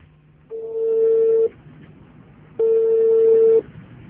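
An outgoing phone call rings through on the line, two long, steady mid-pitched tones separated by an equal pause, heard alone.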